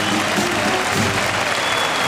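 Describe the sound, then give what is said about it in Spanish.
A bullring crowd rises to its feet applauding after a pair of banderillas is placed with a quiebro at a bullfight: loud, dense clapping forms a continuous roar that stays strong throughout. “Y la plaza que se pone en pie aplaudiendo a Manuel Escribano”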